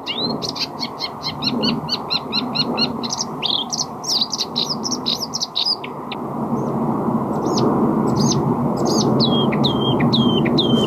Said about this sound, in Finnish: nyt kun vähän kuunneltaan näitä ääniä, niin pakko todeta, että mä oon kyllä hämmästynyt luhtakerttusen ääntä